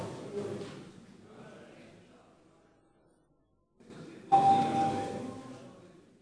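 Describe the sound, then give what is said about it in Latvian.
An electric bell rung in a parliament chamber to call members before a vote. The loud, sustained ringing starts abruptly after a stretch of low background noise and continues to the end. “Lūdzu zvanu.”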